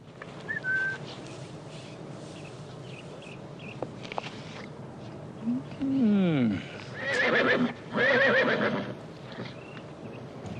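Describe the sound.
A mare gives a loud whinny that falls in pitch, and a couple more bursts of neighing follow. Steady hoof clip-clop runs underneath the whole time.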